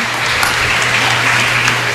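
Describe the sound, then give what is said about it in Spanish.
An audience at a church gathering applauds a branch group: a dense, steady wash of clapping runs unbroken from start to finish with a low hum beneath it. “Un aplauso para que nuestra filial de Colorado sepa la fuerza que tiene acá en el centro.”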